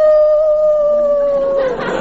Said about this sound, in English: Oh, you are daft about that dog.